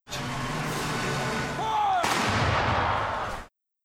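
Artillery field guns firing at a patriotic commemorative event in Ireland: a dense, steady, loud roar with one sharp burst about midway through.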